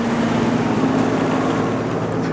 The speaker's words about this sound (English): so I can see a lorry there. I can hear the crane equipment. That's the sound of a lorry.